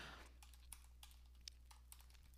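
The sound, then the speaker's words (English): Keys on a computer keyboard are tapped while a web search is typed in, a faint, irregular run of soft clicks with a few sharper taps standing out, the last one near the end. “I'm going to type in just December 21st planets lineup.”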